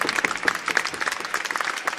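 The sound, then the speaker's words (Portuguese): Audience applause fills a hall after thanks at a live stage show: a dense, steady wash of many hands clapping at an even, fairly loud level throughout, with no single voice standing out. “Portanto, uma grande salva de palmas para vocês.”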